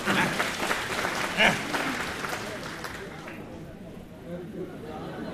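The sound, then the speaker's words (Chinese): Dense audience applause at a live comedy stage show, many hands clapping steadily and loudly before thinning out into softer clapping and crowd murmur. “各位鼓鼓掌，让他来了。”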